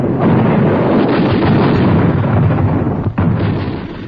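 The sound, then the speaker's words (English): Rapid machine gun fire during a demonstration for soldiers in the field: a loud, unbroken roar of shots that runs the whole way with hardly a break, dipping briefly once near the end. “One of my employees could operate the gun in action, showing the men in the field just how this machine gun operates in action.”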